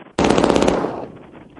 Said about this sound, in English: I'm hearing the gunshots.